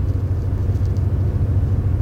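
Steady low engine and road rumble from inside a car driving on a road with a 50 speed limit, a constant droning hum with no distinct events and no talking.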